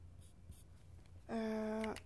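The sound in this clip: A pen squeaks while someone draws a feedback-delay diagram, making a single sustained, bright, buzzing tone that follows a few faint scratchy taps in a quiet space.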